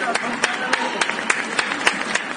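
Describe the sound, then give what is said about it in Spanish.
Applause from people in Spain clapping at their windows and balconies at eight in the evening. Sharp, evenly spaced claps ring out in a steady rhythm over a softer bed of scattered clapping. “Son las 8 en punto de la tarde, las 7 en Canarias. España sale a sus ventanas, a sus balcones para aplaudir.”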